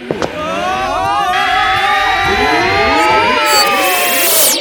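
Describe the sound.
A time-machine jump sound effect: layered, warbling synthetic tones and gliding sweeps hold at a loud, steady level for nearly five seconds, with bright swirling arcs near the end.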